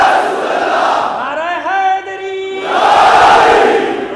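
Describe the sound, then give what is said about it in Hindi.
A crowd shouts the religious slogan Nara-e-Takbir in response to a call: a loud mass of voices, then a single drawn-out voice rising over quieter noise, then the crowd surges back even louder in unison. “मैं नारा लगाऊंगा, नारे तकबीर, नारे रिसालत,”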